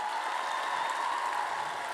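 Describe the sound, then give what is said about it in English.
Applause for a poet after scoring at a poetry slam: a brief, even hiss of clapping from the crowd, fairly soft and uniform for two seconds. “Applaud the poet.”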